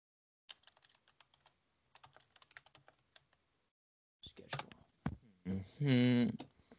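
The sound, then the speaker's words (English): Someone types a search for a football team's schedule on a computer keyboard, a quiet run of quick, irregular key clicks followed by a short pause before people start talking. “I typed in football team schedule and it brought me up everyone.”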